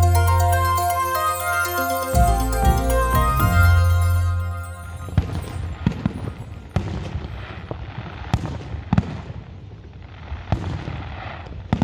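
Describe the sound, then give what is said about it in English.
Fireworks explode over the Ipswich showgrounds at 9pm on New Year's Eve. A sustained tonal sound comes first, then many sharp bangs and crackling bursts follow in irregular succession. “That's the sound of fireworks over Ipswich Showgrounds at 9pm on New Year's Eve.”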